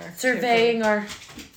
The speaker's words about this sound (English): Everybody's coming in to say hello. Goodbye. The dogs have just taken over.